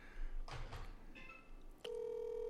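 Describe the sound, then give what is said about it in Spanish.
Faint telephone tones on a call line: a few short soft beeps, then a steady ringing tone that begins abruptly and holds to the end. “Ahí le está sonando ya la línea telefónica, vamos a ver.”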